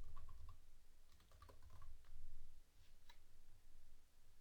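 Quiet, irregular keystrokes on a computer keyboard as plugin names are typed in, with uneven clusters of light clicks and no talking.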